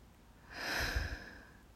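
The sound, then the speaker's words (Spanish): A deep breath through the nose during a calming breathing exercise, heard as one soft, airy rush that swells and fades away. Faint and on its own, with no talking. “Inhalamos por la nariz llenando el torso de aire y exhalamos soltando completamente tensiones.”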